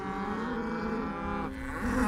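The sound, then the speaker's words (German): Cattle mooing in a herd that includes a bull: a sustained, low, droning moo rich in harmonics, followed by a higher-pitched call near the end. “Pass auf, da ist der Bulle.”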